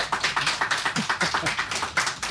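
A live studio audience clapping in a steady rhythmic beat, with many sharp claps landing together at a brisk, even pace.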